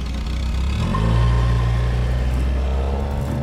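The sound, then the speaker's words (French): Engine of a first-generation 1960s Ford Mustang rumbles steadily, a deep low growl that swells slightly in the middle before settling back, with no voices. “Le son dont je me souviens le plus des années 60, curieusement, c'est le son de la première Ford Mustang.”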